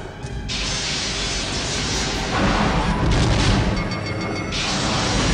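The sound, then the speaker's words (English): Sci-fi phaser fire and explosions, a dense, continuous roar of blasts with deep booming and rattling mechanical crunches that swell louder midway and stay heavy to the end, with no voices. “Lock phasers on target. Locking phasers on target. They're locking phasers. Ray shields. Fire!”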